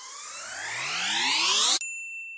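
A gong played during a sound bath: a bright, shimmering wash swells in loudness and climbs in pitch for nearly two seconds, then cuts off abruptly, leaving a few thin, high ringing tones.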